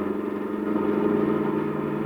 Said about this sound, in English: Now come up alongside the other car. But... Come on, step on the gas.